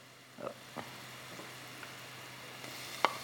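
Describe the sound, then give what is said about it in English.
Chopped garlic sizzles softly in a hot pan while shrimp and cheese saganaki is being cooked. A faint, steady hiss runs throughout, with a few light clicks and taps. “I'm going to add a little bit of chopped garlic.”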